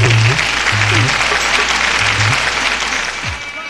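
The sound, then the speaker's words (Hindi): An audience gives loud applause to welcome a woman singer onto the stage, a strong burst of clapping that tapers off toward the end. “एक बार जोरदार ताली बजा करके स्वागत करेंगे।”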